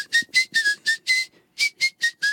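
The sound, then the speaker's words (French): Whistling through the teeth without visible lip movement, a ventriloquist's trick: many short, bright, high whistled notes in a quick, choppy rhythm, with a brief pause midway before the notes resume. “ils se disent « Mais d'où vient ce sifflement qui est agaçant ?» Et en fait, c'est moi parce que je fais...”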